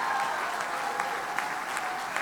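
Church audience applauding to welcome a guest preacher: a steady, dense wash of clapping from many hands, even in loudness from start to finish.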